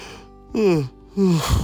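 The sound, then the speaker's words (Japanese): A voiced yawn, drawn out in two moaning stretches whose pitch slides downward, ending in a breathy exhale. “すいません、あくびが出ました。”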